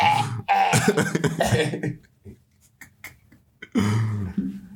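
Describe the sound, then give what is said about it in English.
A person coughs in harsh, raspy bursts, a heavy fit at the start and a second loud one near the end, with quieter short sounds in the gap between. “I told you not to cough”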